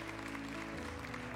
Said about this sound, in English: give him a hand clap of praise for that